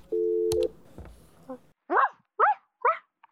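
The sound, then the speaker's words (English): Dog barking comes in a short run of four sharp, evenly spaced barks, the last one cut off at the end. A brief steady electronic beep and a few soft knocks come before the barks. “that's a dog barking”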